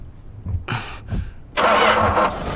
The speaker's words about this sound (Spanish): ¡El auto no arranca! ¡Rayos! ¡Vamos, arranca!